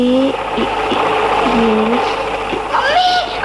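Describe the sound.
Steady mechanical whirring of a hand-cranked sewing machine stitching cloth, its wheel turned by hand, running continuously beneath women's voices talking.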